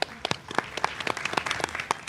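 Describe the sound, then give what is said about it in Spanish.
A small group of people clapping, many distinct, irregular hand claps in quick succession at a moderate level, with no talk over them. “Un aplauso, hombre.”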